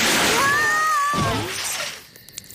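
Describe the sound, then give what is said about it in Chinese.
A water gun sprays water onto burnt marshmallows with a loud, hissing rush and a thin whistling tone, then fades into a softer splatter. “水枪启动。”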